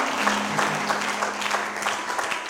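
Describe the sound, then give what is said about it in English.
A church audience claps after a prayer, a brief burst of steady, dense clapping that stays even in loudness throughout. “Clap for Jesus.”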